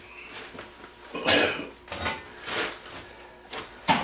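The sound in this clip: Metallic clanks and scrapes as a burned-out metal part is picked up from inside a stove, a few sharp clattering bursts with quieter rustling between them.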